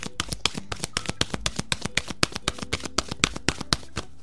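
Oracle cards are shuffled and drawn, making many rapid, evenly spaced crisp flicks and papery snaps that run steadily through the whole stretch with no talk.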